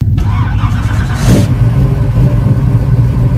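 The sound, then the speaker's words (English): A red 1968 Pontiac Firebird starts up in a shopping center parking lot, giving a loud, steady low engine rumble throughout with a short, noisy surge partway through. “That's the sound of Brian Gerstel's bright red 1968 Pontiac Firebird starting up here at a shopping center parking lot in Burtonsville”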